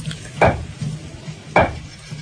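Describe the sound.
Roasted, black, glossy coffee beans are pounded in a mortar: two heavy dull thuds stand out, with a few softer knocks between them.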